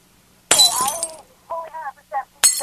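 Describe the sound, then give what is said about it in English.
A glass object knocked over breaks with a sharp, bright crash, followed by people talking and then another short burst of breaking glass. “He's knocking something over that's glass.”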